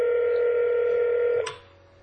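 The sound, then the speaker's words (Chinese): A steady, mid-pitched telephone line tone holds for over a second, then cuts off with a brief click as the call disconnects. Only a faint low hum remains afterward. “那个电话 disconnect， 等他再 connect， OK。”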